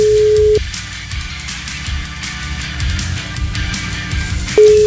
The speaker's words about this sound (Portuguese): a gente tá ligando pra ele